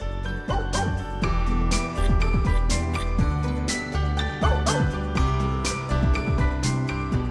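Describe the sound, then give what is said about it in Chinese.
Many dogs bark together in a continuous, overlapping chorus of sharp, loud barks, mixed with high yips and whining yelps throughout. “或许真的是狗在叫，不过也很可能是那个奇怪小镇上的居民发出的声音呢。”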